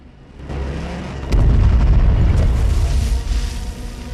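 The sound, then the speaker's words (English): Bombs explode close to soldiers waiting on a harbour mole. Deep booms swell in two stages into a heavy, sustained low rumble that slowly eases off. “Undeterred, Tommy and Gibson push on, instinctively ducking along with all the soldiers waiting on the mole as bombs explode close by.”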